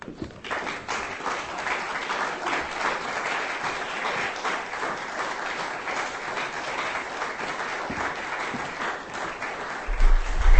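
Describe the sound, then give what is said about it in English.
Audience applause at a live reading event, a steady roar of clapping that holds throughout and swells louder near the end. “Give him a hand.”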